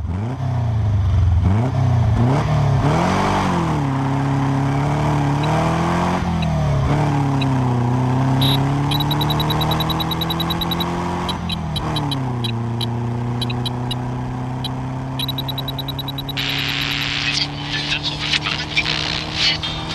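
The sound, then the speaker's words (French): A Volkswagen camper van engine drones low and steady, revving up and down through several gear changes, and is later joined by chirpy arcade-style video-game beeps. “Donc, il y a le bruit du combi Volkswagen.”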